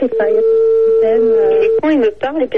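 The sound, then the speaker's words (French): Telephone ringback tone from an unanswered call to a player's parents during a live game: a steady mid-pitched tone holds under people talking, then stops as the voices carry on. “On a essayé de joindre tes parents. Vous l'avez entendu en direct. Hein, ils avaient dit qu'ils décrocheraient pour jouer avec nous.”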